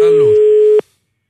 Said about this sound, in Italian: è bassissimo lo squillo